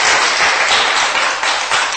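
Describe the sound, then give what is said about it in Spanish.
A church audience claps their hands in loud, dense, sustained applause that keeps an even level from start to end, with no talking over it. “Dele palmas porque él es... bueno en gran manera con nosotros, hermano.”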